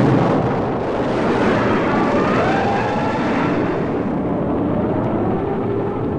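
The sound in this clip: A spacecraft launches in a sound effect: a dense, steady roar of broad rumbling noise holds evenly for about six seconds, with no voices.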